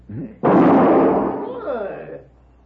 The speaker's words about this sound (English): He's good with guns. Very good, senor. You just shot the gun from my hand.